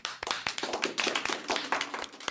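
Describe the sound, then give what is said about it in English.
An audience applauds a performer who is being introduced. Dense, steady clapping fills the whole moment at an even level, with no voices over it. “wherever you are, put your hands together for Margot Black.”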